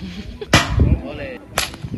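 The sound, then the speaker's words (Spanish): Stones loosed from a traditional shepherd's sling by a champion shepherd in El Torcal, Málaga: two sharp, whip-like cracks about a second apart, each loud and sudden, with duller rustling between them. “Bueno, así suena el tiro de piedra con ondas.”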